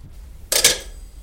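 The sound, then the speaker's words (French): A camera shutter clicks once, a short, crisp two-part snap that stands alone over a faint low hum. “Le clic de l'appareil me fit l'effet d'un coup de cravache à travers la figure.”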